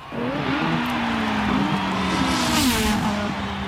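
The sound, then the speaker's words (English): Formula One race car accelerating, a loud, continuous buzzing engine tone whose pitch wavers up and down as it revs, with no voices. “In every Formula One race, there's a pit stop with a range of expert mechanics ready by the track to quickly detect any issues with the race car”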